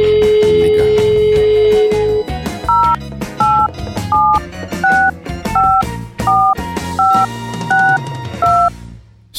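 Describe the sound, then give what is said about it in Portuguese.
Telephone keypad dialing tones beep in a string of evenly spaced, clear two-note pulses over a steady musical beat, after an opening stretch of music with a held tone. “Eu quero fazer uma ligação. Agora? Você quer fazer uma ligação agora? Dá o número, vai. Deu linha aqui, tá chamando.”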